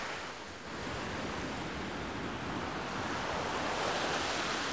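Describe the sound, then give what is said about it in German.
Soft, lulling murmur of a gentle sea wave, a continuous, even rushing hiss that swells slightly after the first half second and then stays level and quiet to the end. “verständnisvoll das lullende Rauschen einer leisen Meereswoge ins Bett legen.”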